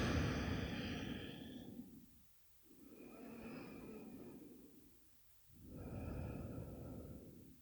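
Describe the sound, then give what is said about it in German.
Deep, slow breaths in and out during a guided relaxation. There are three long, soft, breathy phases separated by brief pauses, quiet and unaccompanied by other sounds. “Atme tiefer ein und aus.”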